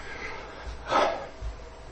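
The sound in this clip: A speaker takes a single quick breath, heard as one short, soft, airy burst against near-silence.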